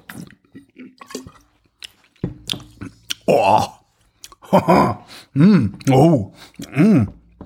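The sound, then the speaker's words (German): Sipping wine during a tasting: a series of wet slurps, swishes and mouth clicks, sparse at first and growing louder and more frequent, joined by short voiced throat sounds. “Dann trinke ich jetzt mal.”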